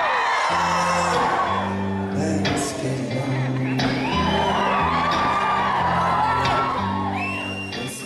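Concert crowd cheering, whooping and yelling over sustained music chords at a pop show; the loud, lively shouts continue throughout and ease off toward the end.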